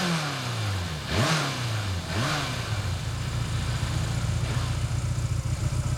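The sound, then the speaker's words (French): A motorcycle engine revs twice, its pitch sweeping down after each burst of throttle, then settles into a steady, louder purring rumble that continues to the end. “Ah, oh, c'est vrai qu'elle ronronne maintenant. Ah, vous voyez ce que je sais faire? Mais toutes les motos font comme ça, hein.”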